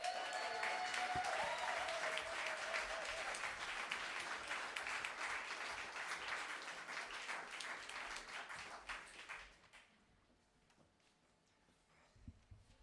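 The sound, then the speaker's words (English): Audience applause at a live folk music concert: dense, sustained clapping for about ten seconds that thins and fades out to near quiet. “A big round of applause for David McGuinness.”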